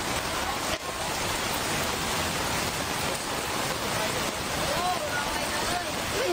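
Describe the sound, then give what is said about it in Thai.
Floodwater waves crash into motorcycles on a flooded street, Chetsadawithi Road in Thailand, producing a dense, continuous rush and splash of churning water that stays loud and steady throughout. “คลื่นน้ำที่ไปกระแทกรถมอเตอร์ไซค์เนี่ยล้มระเนระนาดครับ โอ้ยสงสารรถอ่ะพังหมดเลยน่าสงสารน่ะ”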